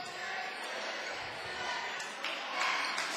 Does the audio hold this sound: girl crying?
no

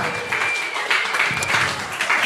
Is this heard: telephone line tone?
no

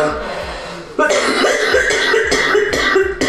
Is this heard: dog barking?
no

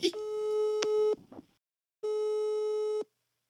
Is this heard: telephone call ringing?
yes

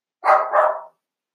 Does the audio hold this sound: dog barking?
yes

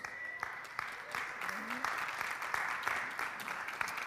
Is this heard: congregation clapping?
yes

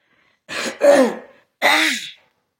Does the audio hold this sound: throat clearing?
yes

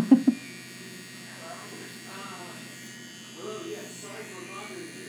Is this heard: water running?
no

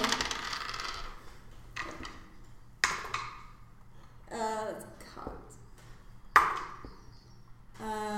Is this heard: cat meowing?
no

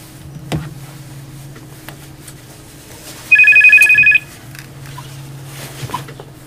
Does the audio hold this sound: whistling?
no

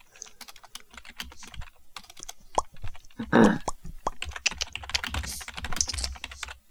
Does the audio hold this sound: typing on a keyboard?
yes

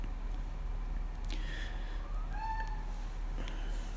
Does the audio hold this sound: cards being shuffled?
no

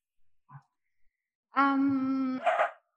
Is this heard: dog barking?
yes

